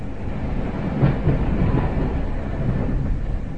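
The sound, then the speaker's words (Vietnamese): A train pulling away gives a steady, loud, low rumble with faint rolling clatter throughout, and no voices. “Tàu chuyển bánh, tiếng sục sịch nhanh dần.”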